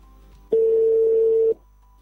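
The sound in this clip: A telephone tone sounds as a call is placed for a radio phone-in: a single steady, mid-pitched beep lasting about a second, heard alone over a faint hum.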